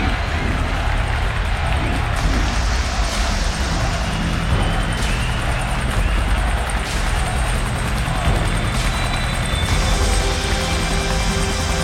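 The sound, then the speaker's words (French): A helicopter approaches the Stade de France, its rotor and engine making a loud, steady droning roar that runs unbroken through the whole stretch, with a few faint ticking accents. “Johnny approche le Stade de France en hélicoptère pour se retrouver en plein milieu de la scène juste après.”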